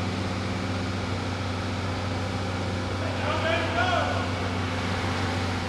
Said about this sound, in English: Mechanical 12 valve back on the dyno. Making another pull.